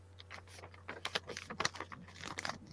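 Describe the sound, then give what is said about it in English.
Fabric being folded over by hand for stitching: many soft, quick rustles and crinkles in an irregular patter, faint overall, over a low steady hum. “So now I've just got the stitching, and then I'm going to fold this over twice”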